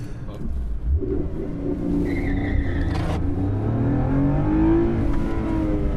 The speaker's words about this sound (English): Oh, that's just warming up the tyres before the start. That wasn't actually the start.